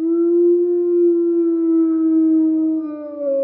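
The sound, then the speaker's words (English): A wolf howl used as a vehicle turn-signal sound effect: a sustained, mid-pitched tonal cry with rich harmonics, held level for over three seconds with a slight waver at the end. “So we wanted to pull from something that we felt resonated really well across the forest, a wolf howl.”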